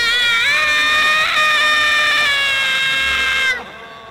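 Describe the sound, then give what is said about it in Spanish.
A woman screams in terror: one long, high, sustained cry holding a fairly steady pitch before it cuts off abruptly near the end. “De pronto, oí otro grito de terror de mi esposa”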